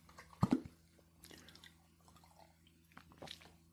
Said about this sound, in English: So, excuse me, let me grab a drink of water.